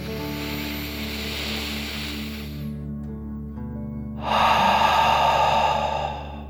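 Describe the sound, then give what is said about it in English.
Deep breathing in and out, with a long, soft airy inhale, a short pause, then a louder, fuller exhale through the mouth, all over a steady low background drone. “Deep breath, in and out.”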